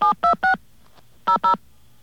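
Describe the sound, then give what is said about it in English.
Touch-tone dialing of a 1-500 number on a telephone: three quick beeping key tones, a pause, then two more, each short, crisp and evenly loud. “We'll dial 1-500, and then a number.”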